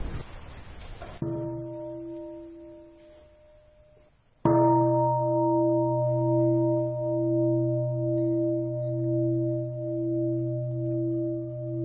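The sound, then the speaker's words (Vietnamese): A meditation bell struck to open a Buddhist dharma gathering, ringing twice here. Each strike leaves a deep, long-sustaining tone with a slow wavering pulse, heard alone with no talk. “là tôi thỉnh ba tiếng chuông. Các vị ngồi nghe chuông và tĩnh tâm mấy phút trước khi chúng ta đi vào cái chương trình đặc biệt hôm nay.”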